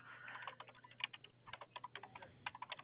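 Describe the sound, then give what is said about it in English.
Typing on a computer keyboard to fill in a form: many quick, faint keystrokes in irregular bursts, with no other sound. “Just doesn't allow me to copy paste any information from your profile, so I'm having to type it all into this form here.”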